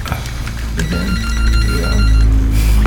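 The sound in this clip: A telephone rings as a call comes in during a studio discussion. The steady, tonal ring holds for about three seconds with no talk over it.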